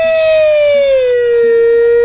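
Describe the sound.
A siren wails in a single loud, pure tone that glides slowly downward in pitch, sounding alone for about two seconds.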